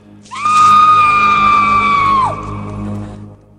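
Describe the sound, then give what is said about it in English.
A woman screams in agony as a gooey concoction is dabbed onto the weeping sores on her face. One loud, high, sustained scream lasts about two seconds and drops sharply in pitch at the end. “The woman screams in agony.”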